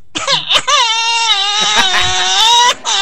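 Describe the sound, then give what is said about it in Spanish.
A baby cries with a snorting, congested breath: a sustained, high, wavering wail broken by brief catches of breath. “otra vez el llanto del niño para que veas que efectivamente se escucha como que tiene un resoplido”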